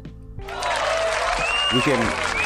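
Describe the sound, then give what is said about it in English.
A brief burst of applause, a round of clapping marking a memorial, rises quickly and stays steady under a man's talking voice. “that's a round of applause for the memorial”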